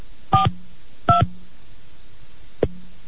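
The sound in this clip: A telephone keypad sounds three dialing tones. The first two are longer and clear, and the third is a short, quick press after a pause, all loud against quiet line hiss.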